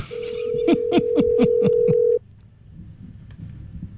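An unanswered telephone call rings out: a steady electronic tone overlaid with a quick series of rhythmic pulses for about two seconds, then it stops abruptly, leaving near quiet.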